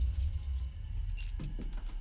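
Keys jangle as they are handed over, a brief cluster of light metallic clinks over a low steady hum.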